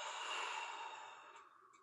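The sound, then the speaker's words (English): A single deep breath, most likely an exhale, taken as a calming breath: a soft, airy rush that starts full and slowly tapers off over about two seconds, with no talking. “Okay, everybody at home listening, deep breath in. Deep breath out.”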